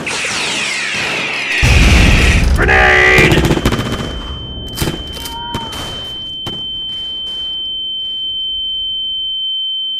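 Video game gunfire roars in dense, loud bursts for the first few seconds, then gives way to a few sharp isolated shots while a steady high-pitched ringing tone holds to the end.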